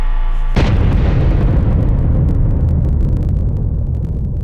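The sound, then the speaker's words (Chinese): A single powerful blast from a full-scale detonation test in China's nuclear weapons program erupts suddenly, then rolls on as a loud, dense, steady rumble that carries through to the end without fading. “6月6日下午5时左右，全尺寸爆轰试验准时点火。”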